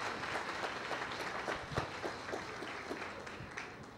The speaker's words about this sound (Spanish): Aplauso para estas parejas.